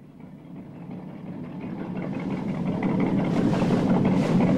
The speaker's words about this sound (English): A small boat heads towards the yacht, bobbing on the water.